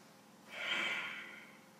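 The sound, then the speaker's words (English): A single deep breath taken during a gentle stretching exercise for fibromyalgia pain relief swells into a soft, airy rush and then slowly fades, heard alone without talk. “So take a second, stretch with me, breathe with me, and we'll go on to do some more movements.”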